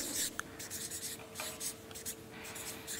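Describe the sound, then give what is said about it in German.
Writing sounds as a short note is jotted down: a steady, scratchy rustle of strokes with a few brief sharper scrapes, moderately loud and heard alone without talk. “Ich schreibe das kurz dazu.”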